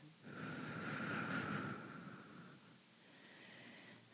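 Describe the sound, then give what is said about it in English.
A slow, deep breath drawn in for about two seconds, a soft airy rush that then eases into a quieter, fainter hiss. “Take a deep breath.”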